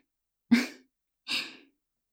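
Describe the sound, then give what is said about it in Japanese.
A deep breath comes as two breathy rushes of air, the first with a sharper onset and the second softer and airier, each fading out within a fraction of a second, with no talk. “でも、もう一回、深呼吸してみて。”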